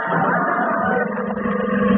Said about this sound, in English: Oh, here comes the police car.